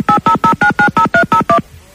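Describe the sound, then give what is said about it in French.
Nine touch-tone beeps as a telephone number is dialed, each a short, bright dual-pitched tone in a quick, even sequence, followed by a faint, quiet line. “Attention, on y va, on appelle encore sans m'en parler à Jojo.”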